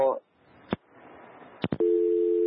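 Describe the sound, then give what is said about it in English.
Telephone line tones after a radio call-in caller's call dropped: a few sharp clicks, then a steady two-note tone that runs on to the end. “I think we lost the caller there. Unfortunately, some of our lines are not doing very well”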